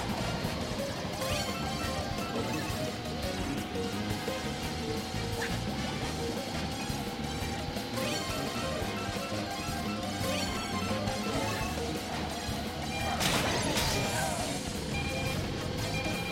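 A green turtle shell strikes a kart in a racing video game, with a single sharp crash near the end that cuts through dense, continuous game music and engine noise.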